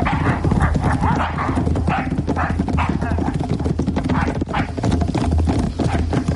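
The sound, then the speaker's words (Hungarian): Hooves clip-clop as several horses, including spare lead horses, are moved along, a dense and steady patter of hoofbeats that continues throughout at an even, brisk pace. “Mindenki tartja a vezetéklovát? Igen. Igen. Induljunk. De csak lassan. Futás!”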